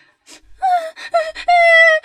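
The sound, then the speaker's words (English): A frightened girl sobs, starting with a sharp gasp and then a few wavering, moaning wails, the last drawn out and steady; loud and heard alone. “was so frightened and began to sob”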